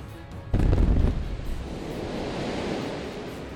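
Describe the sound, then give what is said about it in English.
TNT blows up a warehouse in a video game: a sudden, loud, booming blast that settles into a long, rumbling, hissing decay. “Yeah, the whole warehouse just erupts in a giant explosion. First, the warehouse like sinks in a little bit down into the basement, and then the rest of the TNT just explodes.”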